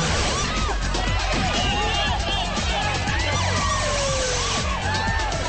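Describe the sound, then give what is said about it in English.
Police car sirens wailing as the cars arrive at a panicked party, with many overlapping, swooping wails over a loud, unbroken wash of commotion. “Police cars arrive on the scene.”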